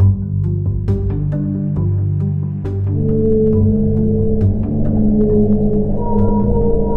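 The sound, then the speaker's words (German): Whale song in the ocean: low, sustained moaning tones overlap with scattered sharp clicks and higher calls, steady and fairly loud throughout, with no voices. “Was Sie da hören, sind Wale im Ozean.”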